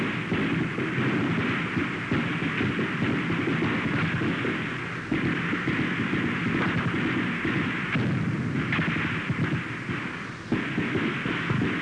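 Artillery fire during combat while a flank is under heavy attack: a dense, continuous rumbling barrage of overlapping booms that stays loud throughout, with a few brief dips, and no voices.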